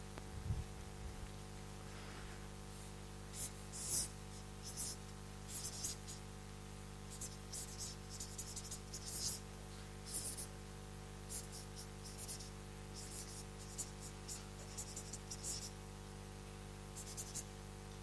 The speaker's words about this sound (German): Und das schreibe ich mal mit Rot.